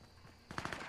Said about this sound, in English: Is that you getting shot at? No, that's me shooting at.